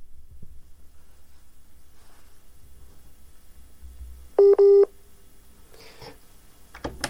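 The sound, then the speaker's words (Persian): Telephone tones sound as a phone call into a studio drops: two short, loud, steady tone pulses rise out of a faint low hum, followed by a few weaker clicks. “فکر کنم تماس ما با آقای رحیمی قطع شده”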